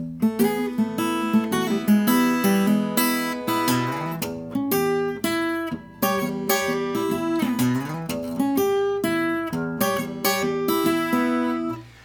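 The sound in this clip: An acoustic guitar plays solo: plucked single notes and chords forming a lick with a turnaround and a slide up the neck. It is moderately loud, with a clear sliding pitch rise near the middle.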